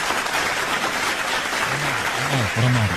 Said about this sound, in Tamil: அவருக்கு கைத்தட்டலனா எப்படி,